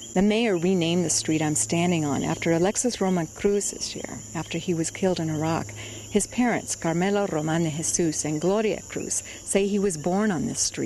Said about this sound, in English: Here in the Cacao neighborhood of Quebradillas, you can hear the tiny coqui frogs croaking at night.